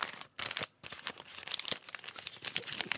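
Wrapping paper crinkles and rustles as a gift-wrapped book is unwrapped, in busy crackling bursts broken by a couple of short pauses. No voices are heard.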